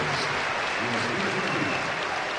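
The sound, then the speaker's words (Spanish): Crowd applauding in the stands at a Spanish professional basketball game in an arena. Steady, even clapping runs throughout while a voice talks over it. “Cómo aplaude el Wizzing. Por favor, es que no es para menos, ¿eh?”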